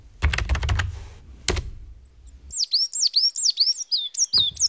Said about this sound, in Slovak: Počuješ to, činčirin? To je síkorka. Keď takto spieva, o 2 týždne príde jar.